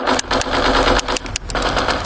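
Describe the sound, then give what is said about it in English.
Dense video game gunfire mixed with an engine-like rumble, a loud and continuous barrage broken by several sharper bursts. “can you put the video game controller down for a second? I can talk and play.”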